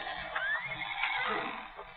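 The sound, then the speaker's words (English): A skittish mustang in a corral whinnies, giving a thin neigh with a rising squeal, moderately loud and heard alone. “And the Mustangs is kind of skittish. Guess they can smell me.”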